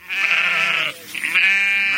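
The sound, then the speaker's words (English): Sheep bleating on a farm in Pulaski County, Virginia, where a flock of 130 ewes is kept: two long, loud, wavering bleats with a brief dip between them and no talk. “He keeps 130 female sheep,”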